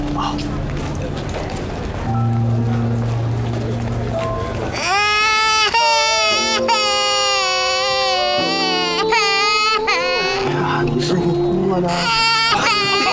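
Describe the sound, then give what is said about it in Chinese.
A shy young girl cries in loud, high-pitched wailing sobs that start partway through and continue in long, drawn-out cries with short breaks. “把您女儿吓哭了。 啊，没有，这孩子怕生，一遇到生人就爱哭”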